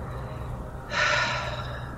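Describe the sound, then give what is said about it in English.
A person voicing a badly wounded tabletop role-playing character gives one loud, rushed, breathy gasp of about half a second, imitating heavy breathing. “I don't know. She just breathe really heavy.”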